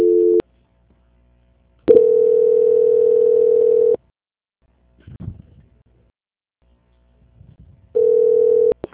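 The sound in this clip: Telephone ringback tone while a call is transferred: a steady mid-pitched tone in long bursts separated by silent gaps, one full tone of about two seconds between clipped tones at start and end, with brief faint voices in a gap.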